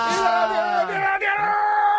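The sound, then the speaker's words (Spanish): A person lets out a loud, drawn-out cheering shout that falls in pitch, breaks off briefly, then continues into a further yell. “Vaya, menudo grito que me ha pegado.”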